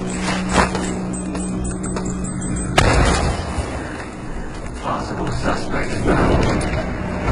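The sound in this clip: A bomb explodes in a video game: one sudden sharp burst cuts through a steady, dense wash of game noise and leaves a rough, rumbling roar that continues at similar loudness afterward.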